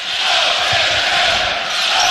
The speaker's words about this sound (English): Go Big Red, just echoing off the walls here in Oklahoma City.